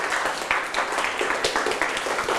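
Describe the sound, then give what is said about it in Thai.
Students in a classroom clapping for a classmate after a finished exercise, a fairly faint, scattered patter with several distinct individual claps standing out. “ข้อ1เสร็จเรียบร้อยแล้วปรบมือให้เพื่อนหน่อยครับ”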